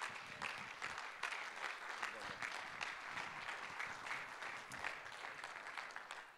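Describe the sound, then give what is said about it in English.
A church audience applauds, the clapping faint but busy and uneven, crisp hand strikes piling up over several seconds while voices murmur underneath. “Put those hands together one more time as we welcome Brother Kirk to come and minister and preach the word of the Lord.”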